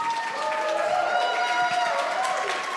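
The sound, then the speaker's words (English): Audience applause and cheering greet a performer being welcomed on stage: dense, steady clapping with raised voices whooping over it, loud and unbroken through the whole moment. “Guys, put your hands together for Stan Zimmerman.”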